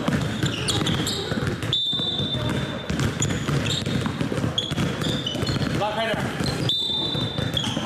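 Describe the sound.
Basketballs bouncing at a children's basketball summer camp on a mountain sports ground: many thuds in an irregular rhythm, with voices talking and calling around them.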